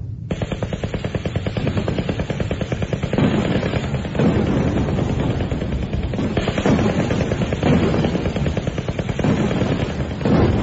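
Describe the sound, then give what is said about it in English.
Rapid, continuous gunfire from a ship's guns firing at will against attacking aircraft during a convoy battle: a dense, unbroken rattle of shots over a heavy low rumble throughout. “Fire at will. All guns, fire at will.”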